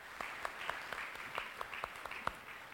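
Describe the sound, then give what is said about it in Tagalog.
A church audience applauds the Lord during worship with steady, faint clapping from many hands, a continuous patter with a few sharper claps standing out. “Pwede pong palakpakan natin ang Panginoon?”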